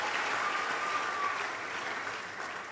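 Steady applause from an audience welcoming a church minister in Nigeria: dense, continuous clapping that holds an even level throughout, with no voices rising above it.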